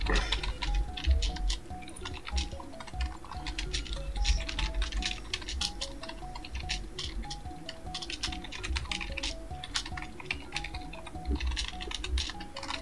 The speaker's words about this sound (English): Sorry, I want to write this down before I forget.